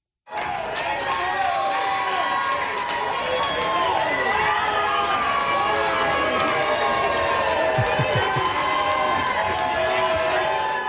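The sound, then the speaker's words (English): A crowd of friends and family in Vancouver cheers a returning Little League baseball team. The loud, continuous roar of cheering carries whoops and shouting voices and holds steady throughout. “That is the sound of the cheers that the Vancouver Little League baseball team received of Little Mountain from friends and family when they arrived back in Vancouver this afternoon.”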